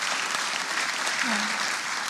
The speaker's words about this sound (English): You should all be clapping right now. We should be clapping. Should we clap?